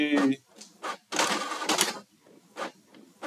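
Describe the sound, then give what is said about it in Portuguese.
A printer at work, giving bursts of rough mechanical whirring and clatter, the longest in the middle and shorter ones after. A voice is heard briefly at the start. “Nossa, eu tô imprimindo aqui, vocês estão ouvindo a gravação? Tô imprimindo aqui.”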